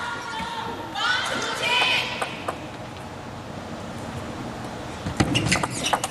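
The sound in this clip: Table tennis ball bouncing during a serve and rally in a professional match, a few sharp clicks near the end, heard under a commentator's talk.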